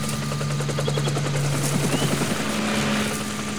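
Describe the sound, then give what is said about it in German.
Helicopter rotor chop from two helicopters searching a coastline: a steady, loud rhythmic thudding over a continuous droning engine hum, with no break for the whole stretch. “Sie kommen! Gibt nur 2 Hubschrauber. Sie suchen die Küste ab.”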